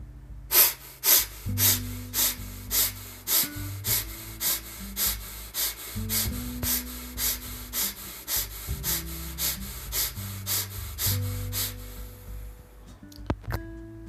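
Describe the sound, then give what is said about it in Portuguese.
Rapid, forceful breathing in and out through the nose during an energizing morning breathing exercise makes a long run of many sharp, evenly spaced breaths in steady rhythm over soft background music. “Mais um circuito, uma última vez, de 30 respirações. Inspirando intensamente pelo nariz e soltando pelo nariz.”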